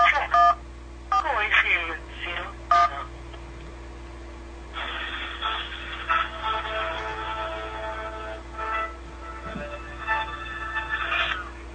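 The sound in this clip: Telephone keypad dialing tones as someone keys in a number to reach an operator for a complaint: many short beeps in quick succession, followed by a person talking.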